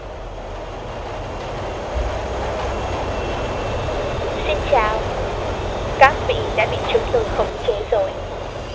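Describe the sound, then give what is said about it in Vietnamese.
Runaway train with broken brakes running on rails, a steady, loud rushing rumble throughout, with a few brief higher-pitched squeaks in the later part. “Có lẽ đây là chuyến tàu đi về tận cùng thế giới. Hệ thống phanh đã bị phá hỏng”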